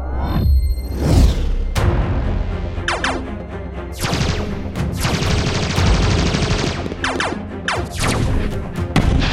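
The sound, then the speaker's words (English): Heavy gunfire in a warship battle: many loud, sharp shots and rapid bursts pile up over a dense rumbling roar, with crashing impacts throughout and no real pause. “Ocanar warship! Cease fire! Cease fire! Stop shooting!”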